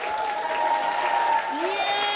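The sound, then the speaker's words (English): Health professionals at the Mayo Clinic clap and cheer on colleagues playing an imaginary ball game called Loser Ball, a steady burst of applause with a voice heard over it. “a room full of health professionals is cheering on colleagues throwing and dropping imaginary balls”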